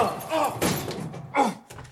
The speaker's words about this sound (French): Ça, c'est une porte de placard. Tiens, il est fermé à clé.